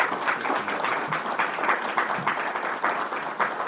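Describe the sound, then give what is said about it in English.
Audience applause fills a Christian gathering as the crowd thanks a group of visiting men, a dense and steady wash of clapping that holds evenly throughout. “Ladies and gentlemen, I know these men didn't do it for applause, but please thank them for being”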